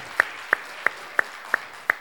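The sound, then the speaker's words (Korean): Applause at a church children's service comes as six sharp claps in unison, evenly spaced and crisp, over a quiet background. “네, 박수 해주세요.”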